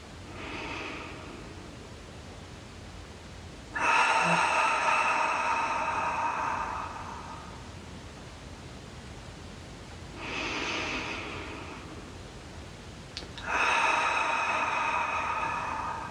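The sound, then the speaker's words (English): Slow, deep breaths taken during a relaxing meditation: long, airy rushes of breath alternate with quiet pauses, a few full inhale-exhale cycles at an unhurried pace, with no voices. “Continue a few more breaths like that, really relaxing and letting go.”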